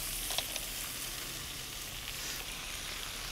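Brown crabs frying in a pan with carrot and celery make a steady, faint crackling sizzle. A few soft clicks break through the hiss, and no voices are heard.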